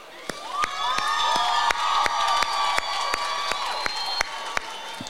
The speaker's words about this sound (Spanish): Un aplauso para el brother.